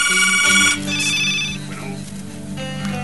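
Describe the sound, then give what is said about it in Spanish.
Telephone ringing during a talk program: high electronic ring tones sound in a few bursts over a low, steady tonal background throughout. “Andy, por favor, contesta el teléfono”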